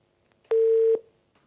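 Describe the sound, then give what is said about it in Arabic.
A telephone tone after a line disconnects: one short, steady beep of about half a second, loud and alone against near silence. “الخط الاتصال انقطع، حاول اتصال بنا مرة ثانية يا أخي الحبيب”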